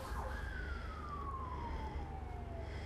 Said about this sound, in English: sorry, sirens.